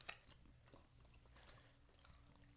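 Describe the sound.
Soft chewing of a squishy, gel-like sweet snack made with milk, soy and glucose. Quiet, wet mouth sounds are dotted with faint clicks, and no one talks.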